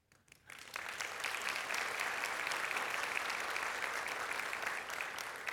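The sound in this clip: Church audience applauding as a visiting speaker introduces his wife. A brief quiet opening gives way to loud, even applause that holds steady to the end.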